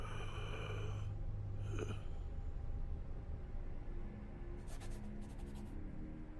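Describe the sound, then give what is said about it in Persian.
A pencil drawing on paper makes a continuous dry, scratchy rasp. The stroking texture shifts slightly, with a few brighter scrapes partway through, over a steady low background. “تو داری چی میکشی؟ اصلا توی این وضعیت چطور میتونی طراحی آرومم میکنه؟”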